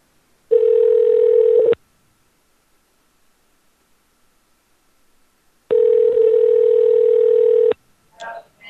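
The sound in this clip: Ringback tone of an outgoing phone call to a veterinarian before voicemail picks up: two long, steady, loud tone bursts separated by silence, with a voice starting just at the end.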